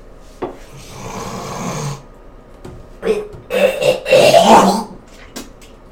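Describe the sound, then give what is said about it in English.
Someone hawks up phlegm from the throat, making harsh, rasping, snorting sounds. A short grating burst comes first, then a louder, longer, gravelly stretch that peaks near the end before fading out. “That was more phlegm. Just hawking it up.”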